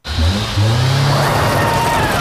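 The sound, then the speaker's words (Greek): Engine revving from a Linklong Sportmaster, a European-built performance car, as a loud, sustained roar that steps up in strength after a brief opening burst and then holds steady, with no talking. “Το νέο Linklong Sportmaster ήρθε για να επαναπροσδιορίσει την οδήγηση.”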